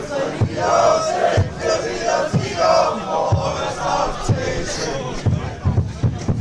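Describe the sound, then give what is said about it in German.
AfC football fans at a match chant together while a drum thumps steadily, roughly once per second. The crowd voices hold a dense, continuous roar beneath the regular low beats. “AfC-Fans. Die machen jetzt Musik AfC. Und trommeln, hörst du das?”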